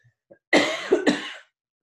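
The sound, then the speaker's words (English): A harsh, loud cough bursts out in two quick pushes and then stops. A couple of faint, brief vocal sounds come just before it, and silence follows. “excuse me, I do have a bit of a cough.”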